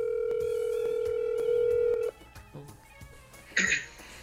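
A telephone call rings out as a steady mid-pitched tone for about two seconds, then cuts off, followed by a few scattered handling noises and a brief rustling burst.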